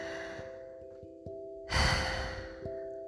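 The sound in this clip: A deep, breathy inhale taken during a guided meditation swells in briefly and then tapers off, set over a low, steady sustained tone.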